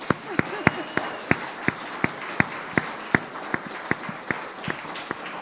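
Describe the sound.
An audience applauds to welcome a speaker at a CCB gathering. Sharp claps land in a steady, regular rhythm over a dense, noisy wash of clapping.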